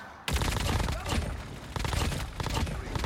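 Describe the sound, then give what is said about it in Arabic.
Rapid gunfire in a shooter video game, fired in several separate loud bursts at bots, each a dense rattle of shots with short gaps between them. “رح نضل عم نطلق نار، وهذا الشيء صعب عليك انك انت تتحكم بالسلاح”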